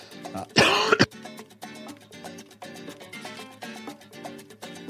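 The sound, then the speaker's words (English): A person coughs: one loud, harsh burst near the start stands out above a quieter background, with no speech. “excuse me, I was coughing.”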